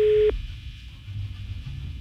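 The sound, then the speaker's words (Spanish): Telephone ring tone from an unanswered call: a short steady electronic beep cuts off abruptly, followed by a faint low hum and line noise. “No contesta. Se llama Rosy, la señora, pero no contesta.”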